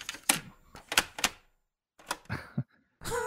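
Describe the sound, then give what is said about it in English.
Mechanical clacks and clunks of a cassette deck being handled while tapes are switched. Several sharp plastic clicks come in short clusters separated by silent gaps, ending with a longer rattling noise. “What was that? It was a cassette deck. I have multiple cassette decks in here right now.”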